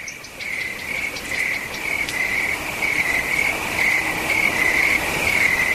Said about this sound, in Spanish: Aparecen los primeros sonidos de la noche: el viento, los insectos, algún sonido lejano y mucho espacio entre ellos.